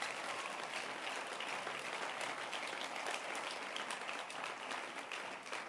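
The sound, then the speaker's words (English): A church audience clapping hands during a service, a continuous, even patter of many hands kept at a quiet level from start to finish. “So clap your hands.”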